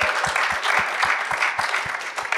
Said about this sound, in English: Can we give Claire Love a huge round of applause?